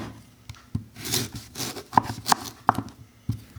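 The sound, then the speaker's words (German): A vegetable being sliced and diced on a board: a few sharp, irregular knife knocks with faint rustling and scraping between the cuts. “Und dann wird auch das in Scheiben geschnitten und gewürfelt.”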